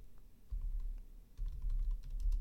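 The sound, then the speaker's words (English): Typing on a computer keyboard: quiet, quick bursts of many soft key clicks over low thumps, coming in two or three short runs with no voices. “I'm going to type because they are 43-25.”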